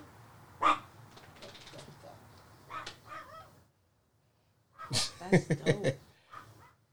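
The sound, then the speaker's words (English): A female dog that has just woken up gives a few whimpering yelps and barks, then falls quiet before a quick cluster of several sharper barks, loud against a low background hum. “I don't know, we're having technical dog difficulties right now.”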